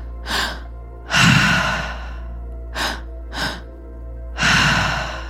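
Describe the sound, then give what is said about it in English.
Breathing drill for a morning wake-up session, with two short inhales through the mouth and then a long exhale out the mouth. Five audible breaths: a quick inhale, a long sighing exhale, two sharp gasping inhales close together, then another long exhale. “picking up the triactive breath, that is two inhales through the mouth and an exhale out the mouth”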